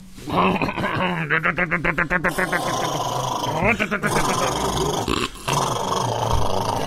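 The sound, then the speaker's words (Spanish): Greyhounds barking and growling desperately while running alongside a car, a rapid run of harsh pulsed barks followed by rougher growls and yelps, with human voices present. “Tres o cuatro galgos corren a su costado, ladrando con desesperación.”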